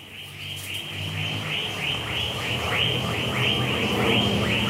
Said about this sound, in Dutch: Omringd door palmbomen en kikkers en vogels die van zich laten horen... neem ik het erf helemaal in me op.